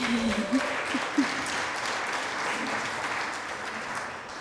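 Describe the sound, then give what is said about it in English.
An audience at a native plant symposium keynote applauds in a steady, moderate patter of clapping, with a voice heard briefly over the first second or so. “Yes, let's hear it for Doug Tallamy.”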